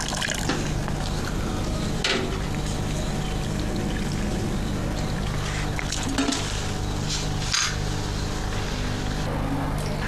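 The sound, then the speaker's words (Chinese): Sour whey slurry is poured into soy milk in a continuous, even liquid wash that runs throughout, with a few brief clinks of dishes or utensils rising above it. “酸浆被小心翼翼地加入豆浆”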